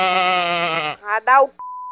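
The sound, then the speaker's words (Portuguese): Sheep bleating over a phone call: a long, wavering bleat is followed by two short, clipped bleats, then a steady electronic telephone tone takes over. “Que cachorro? É um carneiro, doutor Carneiro. Ele tá com fome”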